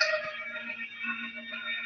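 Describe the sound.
A Farfisa organ plays at a rock concert, holding sustained reedy chord tones that waver slightly in loudness, faint throughout.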